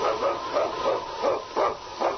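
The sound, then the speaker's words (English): A husky lead dog of a sled team barks in a quick, rhythmic series of about six sharp, mid-pitched yaps, each close on the last, with no voices over them. “It's King, swiftest and strongest lead dog of the North Country”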